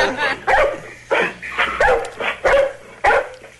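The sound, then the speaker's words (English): A dog barks in a series of sharp, bright yips and barks that come in short bursts with brief gaps between them. The barks are fairly loud, with a whimpering edge to some of them. “What's that? That is a dog.”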